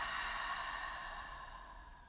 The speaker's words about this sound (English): And one last breath together. Breathe in and out.